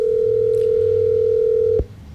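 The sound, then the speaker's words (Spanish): A phone ringing tone sounds while a call struggles to connect over a poor signal. A single steady, loud pitch holds for nearly two seconds, then cuts off abruptly into quiet low background noise. “No, ¿sigue timbrando? Creo que ella está como mal de señal porque la llamada intenta entrar, pero no.”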